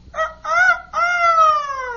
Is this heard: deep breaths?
no